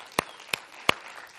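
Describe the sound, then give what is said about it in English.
An audience claps hands during a church sermon: three sharp, evenly spaced claps stand out against a low, steady background. “Let's get a hand clap on that.”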